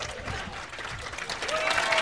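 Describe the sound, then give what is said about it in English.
An audience at a comedy show claps in a faint, steady patter of many overlapping hands, with some crowd murmur. “They're all sitting next to each other, too, so I think some people are just clapping because they didn't want to be left out.”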